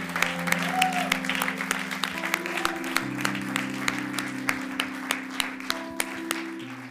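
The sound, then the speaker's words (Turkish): A church audience applauds during a service. Steady, even clapping runs over sustained musical chords that shift pitch partway through. “Come on, let's give the Lord a hand of haydi thanks. Haydi Rabbi alkışlayalım.”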